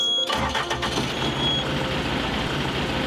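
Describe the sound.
A combine harvester engine starts: a short burst of rapid starter cranking catches into a loud, steady, low diesel rumble that runs on evenly to the end.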